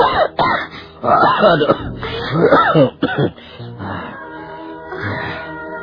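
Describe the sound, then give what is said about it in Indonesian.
An aging father coughs up blood, suffering pain in his ribs. A few harsh, throaty coughing bursts come in quick clusters, then ease into a softer, strained trailing groan. “Lihat, ayah. Batuk-batuk ayah mengeluarkan darah.”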